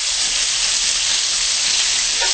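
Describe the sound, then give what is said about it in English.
Steady sizzle of vegan chicken browning in a pan with onion, garlic and ginger: a continuous, even hiss that holds at a constant level throughout, with no voices. “we just want to brown it a little and let all the flavors of the onion and the garlic and the ginger meld together.”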